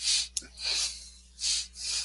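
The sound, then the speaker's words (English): Heavy breathing with a sudden sharp, snort-like catch near the start, then four broad, airy breaths that swell and fade in an uneven rhythm, with no talk. “The way that breathing changed, I'm like, are you gonna start crying?”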